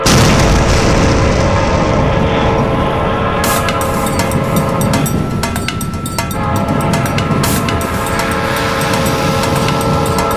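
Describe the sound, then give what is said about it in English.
Explosion of barrels and a train track, heard as a loud, continuous rumbling roar that fills the whole clip and dips slightly near the end, with no voices. “she throws it toward these barrels and it explodes, forcing the track to explode.”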